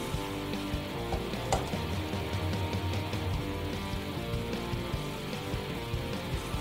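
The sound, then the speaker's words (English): Chana cooking in a covered pan of gravy gives off a dense, continuous sizzle with fine crackling and bubbling that holds steady and fairly loud throughout. “Now we're just going to cover this and let it cook for about 5 minutes. And at this point, we're going to add in our chana.”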